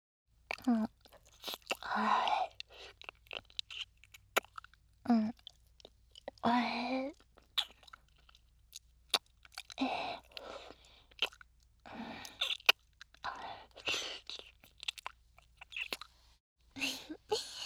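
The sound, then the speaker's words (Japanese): Licking of sweaty skin: soft, wet mouth sounds and small clicks come in short, irregular bursts, mixed with quiet breaths and gaps of near silence. “汗すごいね。汗舐めてあげる。”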